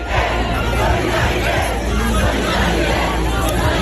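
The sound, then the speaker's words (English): Crowd of demonstrators protesting over the state of schools in France: a loud, dense, unbroken roar of many voices and shouts, steady throughout. “That's the sound of more demonstrations over the state of French schools,”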